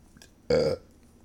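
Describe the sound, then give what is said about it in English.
A single loud burp from someone drinking fast: one rough, voiced belch of about a quarter second, standing alone against quiet surroundings. “I'm so sorry I keep burping. It's because I'm drinking so fast.”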